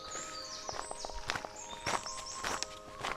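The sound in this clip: Footsteps of two hikers on the Amtsbotenweg trail between Königsberg in Bayern and Coburg on a damp May morning: a steady series of crunching steps, with faint bird calls chirping above.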